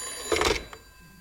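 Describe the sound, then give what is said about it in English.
A telephone rings as a sound effect in a radio comedy: one short, bright ring burst, then a brief faint tail, then quiet. “That's when I got this phone call.”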